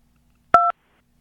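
One telephone keypad tone is pressed at an AT&T collect-call automated phone menu, a single short dual-pitch beep heard alone in silence.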